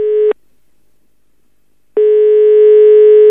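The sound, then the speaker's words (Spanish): A telephone line tone sounds while calling a plumbing company about a bathroom leak: a loud, steady, low-pitched beep cuts off after a moment, then returns after a pause as a long continuous tone. “Llamo a una fontanería con una voz un poco más señorial y a ver si me pueden solucionar la avería.”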